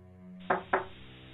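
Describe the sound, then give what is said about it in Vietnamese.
Two sharp knocks on an earthen floor, struck in quick succession, solid and fairly loud over a faint steady background hum. “Rồi bất ngờ có tiếng gõ nền xuống nền đất, làm cho Chiến lờ mờ tỉnh dậy. Anh đưa hai tay dụi mắt. Tiếng gì vậy hả? Tiếng gõ vẫn cứ vang lên đều đặn.”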